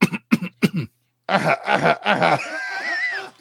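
Coughing and throat clearing from one person: three sharp coughs in quick succession, then after a brief pause a longer, raspy run of throat-clearing that trails off into softer, rougher vocal noise.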